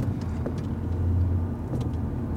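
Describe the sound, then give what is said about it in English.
A car drives along Route 3, Westchester Pike, through a suburb with a low, steady road rumble. A faint engine hum sits underneath, and the level holds even throughout with no voices. “Okay, so now we're driving through this what? This is Route 3. This is the road.”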